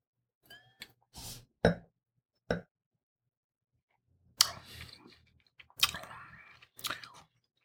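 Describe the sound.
Quiet sips, slurps and wet mouth sounds as a red wine blend is tasted, in a series of short bursts separated by silence.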